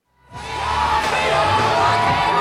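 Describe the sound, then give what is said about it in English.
Supporters cheer and whoop as Harris steps off Air Force Two onto the tarmac outside Johnstown during a campaign stop. The crowd noise swells quickly in the first half second, then holds loud and sustained, with shouts rising above the roar. “When Harris stepped off Air Force Two just outside of Johnstown, supporters greeted her with excited cheers.”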